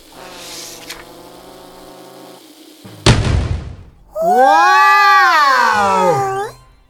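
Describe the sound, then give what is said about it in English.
A birthday candle gives a sharp, loud pop after a quieter fizzing stretch. A long, warbling, swooping tone then rises and falls as a flower shoots out. “Wow! The candle went pop. An enormous flower shot out of it.”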